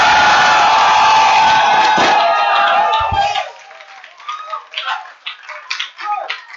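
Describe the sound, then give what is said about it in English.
A church audience claps and shouts in a loud, dense burst for about three seconds before the noise drops away and a single voice speaks. “I want you to clap your hands, lift up your voice, and give the Lord a shout.”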